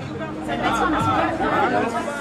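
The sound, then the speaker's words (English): Lively chatter from an after-work crowd of IT developers and marketing workers packed onto a heated terrace in a financial district over beer: many overlapping voices talking and laughing in a steady, busy murmur. “A millennial after-work crowd of IT developers and marketing folks is crowded onto this heated terrace in the city's financial district. The beer and the jokes are flowing freely.”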